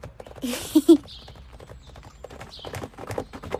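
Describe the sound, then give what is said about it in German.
A galloping horse's hooves pound in a quick, steady clip-clop rhythm, with two louder thumps near the start, continuing at a moderate level to the end. “Wolke galoppierte neben ihr.”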